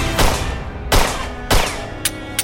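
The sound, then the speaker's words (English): Gunfire during a fight: five loud gunshots in an irregular rhythm, the first three heavier and more widely spaced, the last two sharper and quicker, with no talk over them. “Kendall fires at Tyler, but the metal beam covers him too well.”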